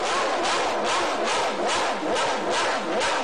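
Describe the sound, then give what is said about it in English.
A Ferrari V12 racing engine roars loud and continuous, its dense, raspy tone pulsing in a series of rapid swells, with no talk over it. “That's the sort of sound that he could... Is that the Matra or the Cosworth? No, that was the Ferrari V12.”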